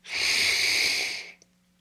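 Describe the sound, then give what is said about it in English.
A single deep breath taken in unison by a group, a steady airy rush of breath lasting just over a second before cutting off, followed by a faint tick and silence. “Let's honor the mystery together with one deep breath.”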